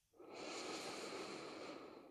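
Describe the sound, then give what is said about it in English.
A full, slow breath drawn in through the nose: one smooth, airy inhale that holds steady for about two seconds, heard alone. “You can take another full breath. So inhale in through the nose,”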